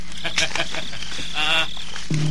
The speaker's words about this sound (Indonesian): Dua ekor burung, Kakang. Dua ekor burung yang tengah bermesraan di semak ini.